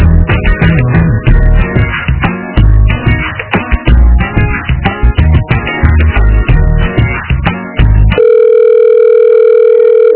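Telephone line sounds during a call transfer: about eight seconds of loud, tinny hold music, then a steady, unchanging electronic tone that lasts until the end.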